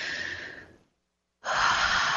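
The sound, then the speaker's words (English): A big deep breath: a long, airy rush of breath, then a full pause of silence, then a second, louder breathy stretch that carries on to the end. “So on that note, take a big deep breath”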